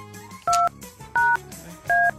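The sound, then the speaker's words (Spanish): Telephone keypad dialing tones as someone dials a number, three short, even beeps spaced roughly evenly apart, each clear and steady above a faint background. “Vamos a ver, le voy a marcar a alguien. A ver si nos contesta.”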